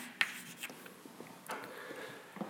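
Writing on a board during a lecture: faint, scattered scratchy strokes and taps at irregular intervals, with no talk over them.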